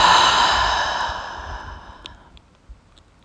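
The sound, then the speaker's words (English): A deep breathing-out during a mindfulness breathing exercise: one long, breathy exhale that starts fairly loud and fades gradually to near silence. “We'll take a deep breath through the nose and out of the mouth.”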